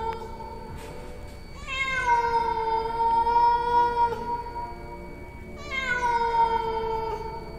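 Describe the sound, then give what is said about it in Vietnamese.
A stray cat meowing underfoot: two long, drawn-out, tonal meows several seconds apart, each rich in harmonics, sounding over a quiet, steady background. “Chàng giật mình bởi vì văng vẳng có tiếng mèo kêu ngay ở dưới chân vậy.”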